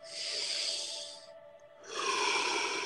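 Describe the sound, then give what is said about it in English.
Slow breathing during guided meditation breath work, in through the nose and out through the mouth: two long, soft, airy breaths, each about a second, separated by a brief quiet pause. “We're going to breathe in through the nose and out through the mouth.”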